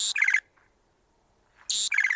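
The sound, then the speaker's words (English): White-crowned sparrow calls twice: each short phrase opens with a bright, high whistled note and drops into a quick series of lower buzzy notes, separated by a clear silent pause. “White-crowned sparrow.”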